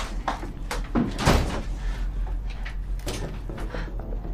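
A door is yanked hard in a tool room, giving one loud rattling thud near the middle, with scattered softer knocks and scrapes before and after it.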